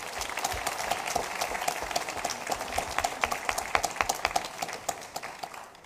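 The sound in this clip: Audience applause welcomes a speaker to the front at a church gathering: dense, steady clapping from many hands that holds an even level throughout, with individual sharper claps standing out toward the end.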